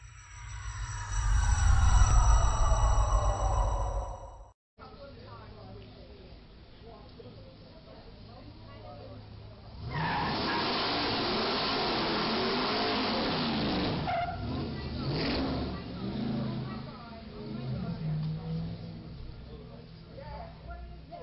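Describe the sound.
A car revving and skidding during reckless driving in Florida. Harmonic engine tones come first, then a sustained loud roar of engine and tire noise through the middle, easing into further rumbling.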